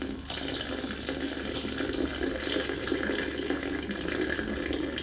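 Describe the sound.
Just-boiled water pours steadily into an Eva Solo coffee brewer over washed coffee grounds, a continuous splashing, gurgling flow that holds an even loudness for the whole stretch.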